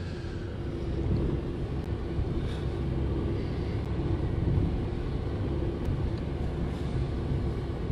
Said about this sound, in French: c'est une Nissan Micra, la pointe automobile. Fait que c'est un petit véhicule.